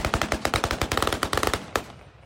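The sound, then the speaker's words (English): Celebratory gunfire in a central square of Damascus: many sharp, loud shots in rapid automatic bursts, with a final few isolated cracks trailing off. “There was celebratory gunfire here at the central Umaydia Square in Damascus.”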